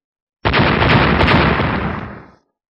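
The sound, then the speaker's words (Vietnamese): A loud explosion bursts in suddenly as an energy attack strikes a spaceship hull, a dense roaring blast that holds for about two seconds before tapering away into silence. “Năng lượng đáng sợ công kích thẳng vào thân phi thuyền bị vỡ ra.”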